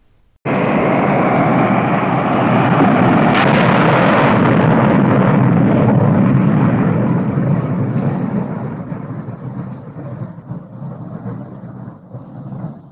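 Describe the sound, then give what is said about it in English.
A rocket taking off into space: a sudden, loud rumbling roar bursts in, holds steady for several seconds, then gradually thins and fades. “The rocket began to take off. Up it went and out into space.”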